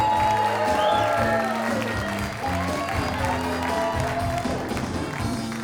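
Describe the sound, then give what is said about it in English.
Audience applause at a comedy show greets a comedian coming onto the stage: dense, steady clapping and crowd noise stays loud and unbroken from start to finish. “And now welcome to the stage, your first comedian of the evening. Give it up for Rivas Dunlap. Let him hear it.”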